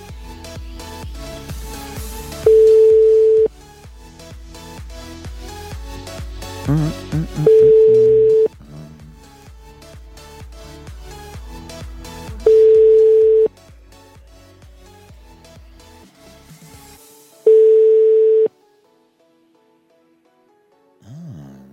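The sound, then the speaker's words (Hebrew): Ringback tones of an outgoing telephone call dialed without prior arrangement: four steady one-second rings spaced about five seconds apart over a background music bed, which drops away after the last ring. “בוא נחייג בשידור חי ונאחל מזל טוב למישהו”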